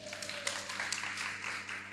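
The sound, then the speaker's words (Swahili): Faint, scattered clapping from a Swahili-speaking audience during a Bible lesson, with a low steady hum beneath and irregular claps. “Jipigie makofi na hiyo.”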